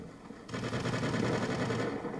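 Gunfire in a video game: a sudden, loud, sustained burst of rapid shots begins after a short quiet lead-in and continues steadily to the end.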